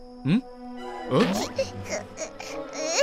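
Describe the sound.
A baby cries in short wailing bursts whose pitch rises and falls, with several separate cries and a louder, longer wail at the end.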